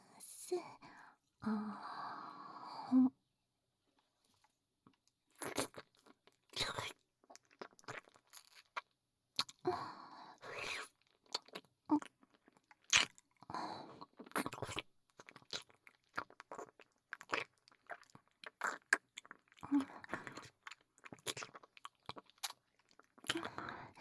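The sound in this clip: Crunchy biting and chewing of food, with many short crisp crunches and wet chewing sounds in an irregular rhythm, close and fairly quiet, alongside soft intermittent whispering.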